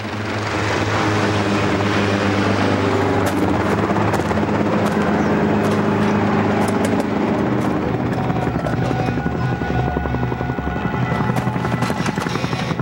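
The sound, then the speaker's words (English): A small helicopter swoops in with a loud, steady rotor roar. Rapid chopping pulses and a broad engine whine run unbroken throughout. “A small helicopter swoops in.”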